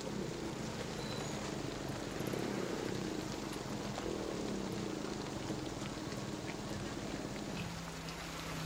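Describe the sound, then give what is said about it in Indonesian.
Rain falls steadily at a small roadside shelter, a faint continuous hiss of drops with no breaks. “sekarang kan sedang hujan. Kalau kita terus berjalan, nanti kita akan basah.”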